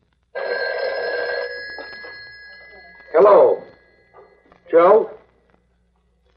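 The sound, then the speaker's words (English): A telephone rings once with a sustained electric bell trill in a bookie joint pool room. A man then answers with a brief spoken greeting. “The sound you hear now has never been heard before on the air. This is a bookie joint, a pool room, they call it.”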